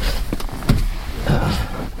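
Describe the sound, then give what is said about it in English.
A car door shuts with a dull, muffled thump and a brief pressure pulse over steady low cabin rumble, with a second softer knock shortly after. “Ooh, that was loud for you, and I realized what it was. It is when I close my car, the seal of the car is causing the diaphragm”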